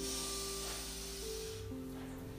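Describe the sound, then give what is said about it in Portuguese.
Deep breath drawn in during a guided breathing exercise, a soft breathy hiss over sustained, gentle music tones, the inhale fading out after about a second and a half. “Se você quer reconstruir agora, inspira.”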